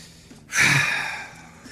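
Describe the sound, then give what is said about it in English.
A deep breath taken by a contestant in a trivia game: one long, breathy inhalation lasting about a second, rising abruptly out of quiet and then slowly fading. “Take a deep breath.”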